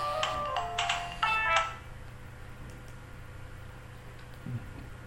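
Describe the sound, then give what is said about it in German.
A telephone rings with a few short, bright electronic ringtone bursts over the first second and a half, then falls silent, leaving only a faint low hum. “wie es so ist, wird man manchmal durch so ein Telefon unterbrochen.”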